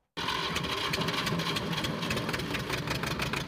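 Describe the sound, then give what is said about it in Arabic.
A diesel generator powering a grain-sieving workshop starts abruptly and runs at a constant idle. It makes a dense, steady mechanical drone with a fine knocking texture and no voices. “مع كل تشغيل لهذا المولد”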